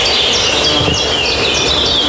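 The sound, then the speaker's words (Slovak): Birdsong in a forest in northeastern Serbia: repeated high chirps and short trills rise above a loud, steady, dense hiss that fills the whole clip. “v ňom dnes na miesto motorových píl aj naďalej ozýva vtáči spev.”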